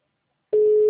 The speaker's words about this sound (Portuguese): Já estou chamando, não está atendendo não, mas está chamando, está funcionando.